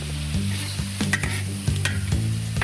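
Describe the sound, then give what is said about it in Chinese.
Stone frog pieces stir-fried in hot oil with ginger slices, pickled chili and soy sauce: a steady loud sizzle with a few sharp spatula scrapes and clinks over a low, continuous hum. “待锅内油热后，放入姜片、石蛙、泡椒、生抽进行爆炒，”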